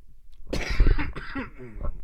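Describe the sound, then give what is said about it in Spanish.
A short bout of coughing: a harsh, breathy burst followed by a few weaker rough bursts and throat sounds, fairly faint and with no speech over it. “Perdón por la tos.”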